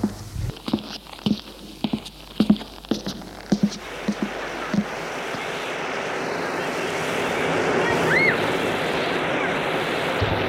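Waves washing onto a beach, a steady broad surf roar that grows gradually louder, with a series of soft thuds in the first half.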